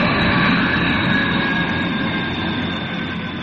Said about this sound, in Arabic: دقائق وتصل الطائرة إلى مطار القاهرة الدولي.